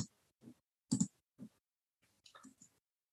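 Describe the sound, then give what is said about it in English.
Computer mouse clicks while entries are added to an asset register: a few soft, separate clicks about half a second apart, then a quicker cluster of clicks near the end, faint with no talk. “So I can just click OK to add that one, and I'll just do the same very quickly for this one.”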